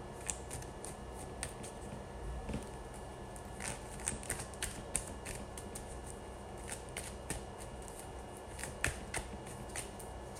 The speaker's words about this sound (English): And I have a lot of cards slipping.